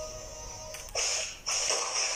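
Hits on a mob in the video game Minecraft: two loud, harsh, noisy bursts follow a quieter stretch, each lasting about half a second.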